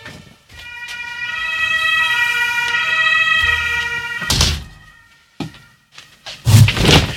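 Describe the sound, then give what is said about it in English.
Fire truck sirens sound beside a radio studio next to the fire station: a steady, harmonic-rich siren tone holds loudly for about four seconds, then gives way to a few dull thumps and bumps. “It is in fact quite unfortunate when you have a radio studio located directly next to the fire station, because if there is a five-alarm fire, then all of the fire trucks roll out one after the other and blow their sirens”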